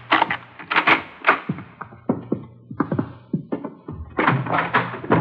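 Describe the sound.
A door to room 345 on a third floor is unlocked and opened: a string of clicks, taps and wooden thunks, then a denser clatter at the end.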